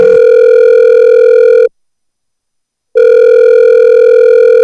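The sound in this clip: A telephone rings in two long, loud, steady electronic tone bursts, separated by a brief silence, with no talk.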